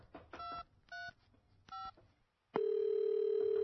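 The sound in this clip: Telephone keypad tones sound as a call is placed: three short dialing beeps come first, then a brief silence, then a steady, unbroken tone holds to the end.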